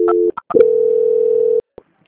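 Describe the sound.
Telephone line tones while a call is transferred: a short steady tone, a few brief beeps, then a longer level tone of about a second that cuts off abruptly, followed by a faint click.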